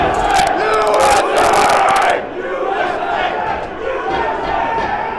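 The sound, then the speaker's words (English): A crowd of rioters at the US Capitol on January 6th roars and shouts loudly, many voices blending into a continuous din that eases slightly partway through. “What you're about to see is the riot that was taking place on January 6th.”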